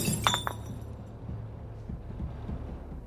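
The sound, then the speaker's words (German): A beer bottle smashes with a brief, bright crash of breaking glass at the very start, followed by a low, quiet rumble that continues to the end. “Ich zerschlage die Flasche. Das Bier fließt auf den Boden.”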